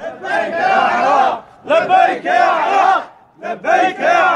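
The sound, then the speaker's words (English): Iraqi government troops cheer in Kirkuk, celebrating the lowering of the Kurdish flag and the raising of the Iraqi flag. A loud crowd of men shouts and chants in several sustained bursts, with short pauses between them. “That's the sound of Iraqi government troops in Kirkuk yesterday, celebrating the lowering of the Kurdish flag and the raising of the Iraqi flag.”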